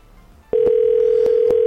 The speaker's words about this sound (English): I'm going to make another call to another person without hanging up. We're going to make a three-way call. Here it goes.